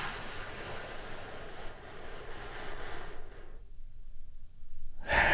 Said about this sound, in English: Close your eyes if you can, if you're not driving, and take a deep healing breath with me right now.